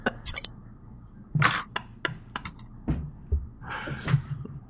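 Glass clinks as a jar of pickles is cracked open, a few sharp, bright taps and rattles in short bursts separated by quieter gaps.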